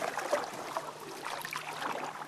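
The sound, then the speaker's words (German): Canoes paddling across a forest lake in the Mecklenburg Lake District on a sunny day, four boats cutting the water. A faint, steady swish and wash of water runs throughout, with no voices. “4 Kanus zerschneiden die Wasseroberfläche.”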